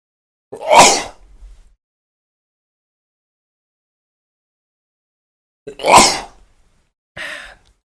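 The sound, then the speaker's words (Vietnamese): Sneezes from one person: two loud, full bursts separated by a long silence, then a shorter, lighter third sneeze, with no talk around them. “không biết có ai nhắc không, tự nhiên hắt xì các bạn.”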